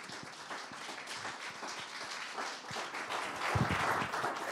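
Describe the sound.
Faint audience applause welcoming a historian to the podium for a lecture, individual claps distinct within a thin, uneven patter that grows somewhat fuller toward the end.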